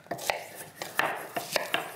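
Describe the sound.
A knife chops onions and potatoes coarsely on a board for a one-pot dish in a kitchen: several sharp, crisp knocks at an uneven pace, fairly quiet, with no talk over them.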